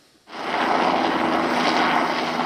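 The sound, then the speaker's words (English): A military helicopter crosses overhead at a military camp just outside the main airport in Kingston, Jamaica. Its loud, steady engine and rotor roar starts abruptly after a brief quiet moment and then holds evenly. “as a military helicopter cuts across the sky overhead”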